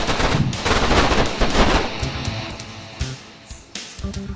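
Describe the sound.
Video game gunfire crackles in loud, dense automatic bursts through the first half, then thins into sparser separate shots.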